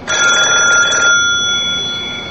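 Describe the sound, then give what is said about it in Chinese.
A desk telephone rings in one bright, electronic burst of about a second, then the ring fades away alone. “就在这时，桌上的电话机响了。”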